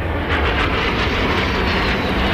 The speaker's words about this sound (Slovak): Ja, toto bolo čo? No nie. Dva migy stíhačky.